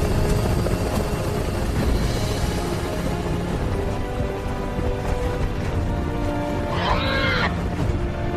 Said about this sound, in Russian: Вертолет пролетает сквозь лес на фоне огромных деревьев и пестрой зелени.